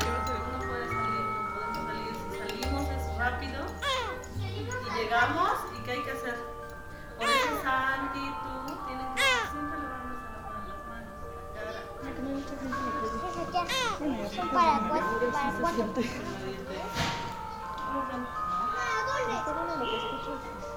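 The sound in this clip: School children play and talk in a continuous, busy mix of chatter, shouts and high-pitched calls. Overlapping voices rise and fall steadily throughout.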